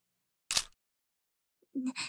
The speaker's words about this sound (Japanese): 写真撮りたい？もちろん、いくらでも撮って。